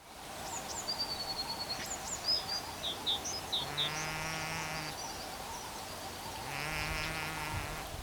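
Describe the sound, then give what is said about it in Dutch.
Two drawn-out nasal, buzzing calls from a beaver, each lasting about a second, sound over a steady hiss. They follow a run of faint, high bird chirps. “We moeten even de aandacht hebben voor dat geluid van die bever.”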